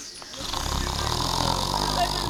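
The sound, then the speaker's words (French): A person produces a deliberate snore on request: a sustained, rough, rattling low snore that swells in after the first half-second and holds steady and fairly loud throughout. “Entrez dans le cercle et donnez-nous votre ronflement personnel.”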